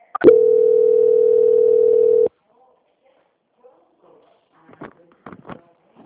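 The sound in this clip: A steady telephone tone marks a bank customer's call being transferred to the quality department. One unbroken, even pitch holds for about two seconds and cuts off into silence, followed by a few faint, brief voice fragments.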